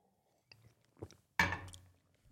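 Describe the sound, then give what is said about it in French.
A sip of water from a glass, heard as a few faint mouth clicks followed by a louder gulp that fades, set against near silence. “J'ai presque plus de salive, donc je vais boire un petit coup d'eau.”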